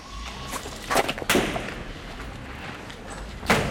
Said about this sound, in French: Ça tire depuis quand? 22 jours. Les 22 jours, ça tire comme ça là.